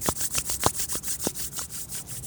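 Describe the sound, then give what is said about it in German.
Palms of the hands rubbed briskly together until warm: a faint, even train of rapid back-and-forth swishing strokes with a steady rhythm. “Und dann lade ich dich ein, deine Handflächen aneinander zu reiben, bis sie warm werden.”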